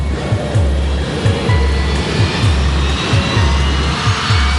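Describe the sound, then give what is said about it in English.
Engines of a Boeing 757 airliner before takeoff give a steady, broad roar, with a regular low thumping pulse running beneath it throughout. “The Aero Peru 757 is among a new generation of computer-controlled aircraft”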